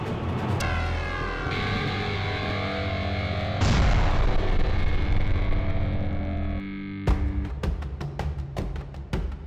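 A heavily processed, distorted explosion boom for a blast wave spreading outward in space, a sustained roaring rumble that surges partway through, then breaks into a run of sharp crackling bursts near the end.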